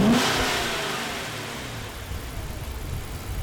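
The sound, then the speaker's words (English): The V8 Hemi engine of a 2017 all-wheel-drive Dodge Charger roars loudly at high revs. The dense, rumbling engine noise eases off slightly and then holds steady. “This one is a 2017 all-wheel drive Dodge Charger with a V8 Hemi in it.”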